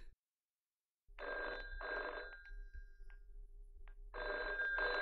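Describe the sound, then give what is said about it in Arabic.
A telephone rings in loud paired bursts of bell tone. One double ring is followed by a pause, then a second pair begins. No voices are heard. “ده التليفون بيضرب. لما اروح اشوف مين”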